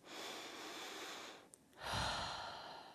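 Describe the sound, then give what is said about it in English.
A deep breath is drawn as a long, soft inhale, followed after a brief pause by a fuller, airy exhale. “By taking a deep breath”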